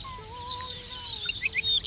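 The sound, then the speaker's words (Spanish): An Arricotí bird sings faintly, with thin whistled notes followed by a few higher, quick chirps. “Arricotí, se llama como tal porque es una emulación de la onomatopeya que produce, uh-huh, en el canto, el titutí.”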